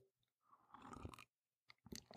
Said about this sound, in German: Ich nehme mal hier nochmal einen Schluck von meinem Tee.